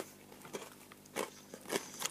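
Crisp crunching of fried Annō sweet potato chips from Tanegashima, made only from sweet potato and vegetable oil. A few faint, irregular bites and chews come alone, without talk.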